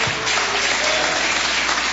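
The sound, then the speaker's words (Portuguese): A standing church audience claps joyfully, with continuous, even applause that fills the short stretch. “vamos já receber o servo de Deus com aquelas palmas bem alegres para Jesus.”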